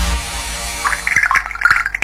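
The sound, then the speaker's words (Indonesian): Water from a tap left running, with uneven splashing and dripping spurts that grow louder and busier in the second half, and no talk. “ini airnya kenapa dibiarin ngalir terus?”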